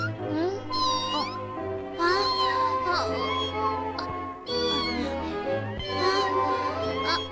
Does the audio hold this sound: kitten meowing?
yes